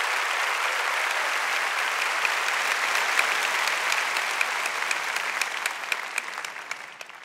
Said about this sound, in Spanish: Dale fuerte ese aplauso al Señor.